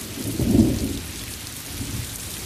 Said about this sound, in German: Regen fällt. Sanft.